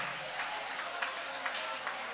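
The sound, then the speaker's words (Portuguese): A church audience applauds with raised hands during worship, a faint, thin patter of clapping with a few slightly sharper claps standing out at irregular moments. “Levanta a mão e vai aplaudindo. Vai aplaudindo, você terá a presença.”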